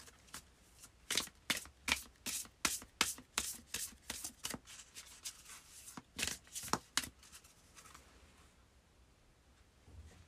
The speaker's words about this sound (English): So let's pull a spellcasting oracle card.